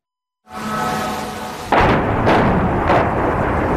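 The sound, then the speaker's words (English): A Russian missile strike explodes over Kyiv at night. A rumbling roar begins after a short silence, then a heavier blast hits and two further bursts follow in a loud, sustained din. “The moment of impact in yet another round of deadly Russian strikes. The night sky over Kyiv illuminated as fires tear through the city into the early hours of the morning.”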